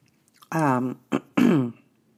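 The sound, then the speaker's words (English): A person coughs and clears the throat in three rough, voiced bursts, long, then short, then long. The bursts are fairly loud and separated by brief silences. “Hang on. I got a cough.”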